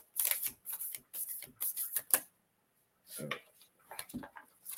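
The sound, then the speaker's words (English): Cards being shuffled during a card reading, crisp riffling bursts in a quick run of several with short pauses, then a gap before a few more bursts. “Got these cards coming out for you, girly. Speaking of, three cards jumped out for you.”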